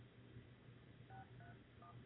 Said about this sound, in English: let's dial him at the office.